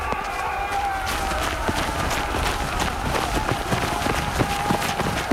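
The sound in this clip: Horses gallop at speed during a mounted escape, a dense, continuous drumming of many hooves with scattered sharper hits, steady and loud throughout.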